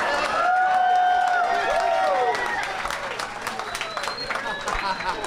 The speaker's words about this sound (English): whenever you end a sentence with a movie title that he's in, the audience erupts like a volcano